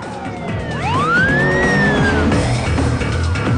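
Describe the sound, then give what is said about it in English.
Police car sirens wail during a chase after street racers, one loud sweep climbing to a high peak and sliding back down over the rushing noise of speeding cars, with no voices. “Police cars pursue the street racers.”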